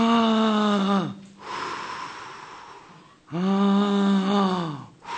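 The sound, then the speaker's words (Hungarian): A deep, slightly asthmatic-sounding breath, heard as two wheezy, tonal pulls of air with a raspy edge. A softer, breathier stretch comes between them. “lehet, hogy kicsit aszmatikusan hangoztam most így a lélegzetvételemben, de mikor tiszta levegőt veszünk”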